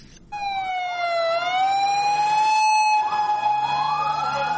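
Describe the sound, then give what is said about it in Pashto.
Ambulance sirens wail as vehicles rush to a bombing scene in a crowded park in Lahore, a loud, sustained siren whose pitch dips and then climbs again over a low engine rumble. “به دنبال انفجار نیرومند در لاهور، ده ها امبولانس به محل رویداد حرکت کردند.”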